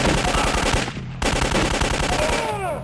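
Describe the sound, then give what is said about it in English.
Rapid gunfire from a video game shooting sequence, dense machine-gun bursts rattling almost without a break. There is a brief dip in the firing before it resumes just as loud and continuous. “You know, I don't know if we should be shooting people like this.”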